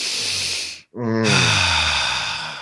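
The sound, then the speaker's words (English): People take a deep breath together: a long, airy inhale, a brief pause, then a long, breathy exhale that begins with a voiced sigh. “Everybody take a deep breath on that one.”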